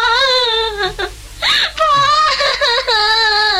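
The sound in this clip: A person cries and wails in grief over someone killed by a gunshot. The voice is loud, high and wavering, with whimpering sobs and short breaks between drawn-out moans.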